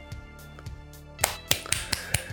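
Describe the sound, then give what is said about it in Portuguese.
Hand clapping, a quick run of about five sharp, bright claps in the second half, preceded by softer rhythmic tapping beats at a low level. “Ah, bate palma. Atriz. Bate palma, com certeza.”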